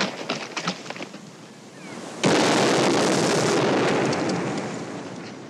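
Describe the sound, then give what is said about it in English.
A sudden loud blast like a shot from a newly bought gun in a western film scene, cutting in after a quiet start and trailing into a long, broad roar that slowly fades. “Like this scene in El Dorado, where John Wayne's character buys another character named Mississippi a new gun. Likely spot to try that new gun.”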